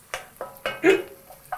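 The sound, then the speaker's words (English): Food is stirred in a pan during a cooking challenge, giving a few short, sharp utensil knocks and scrapes against the pan in quick, uneven succession over a quiet background. “So give it a stir. I did.”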